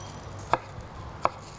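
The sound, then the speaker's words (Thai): Knife chopping cucumber into sticks: two faint, sharp cutting knocks about three-quarters of a second apart, heard alone over a quiet background. “เราก็หั่นแตงกวาเราจะหั่นที่มีลักษณะเป็นแท่งๆเหมือนกันนะคะเพื่อจะได้ห่อได้ง่ายขึ้นนะคะ”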